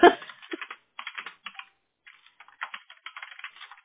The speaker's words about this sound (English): If I could type my name right.